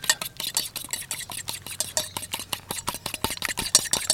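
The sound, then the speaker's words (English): Raw eggs stirred briskly in a bowl to make Halloween gore sound effects. Many quick, regular clicks and wet scrapes follow one another in a fast, steady rhythm. “Mix up the eggs.”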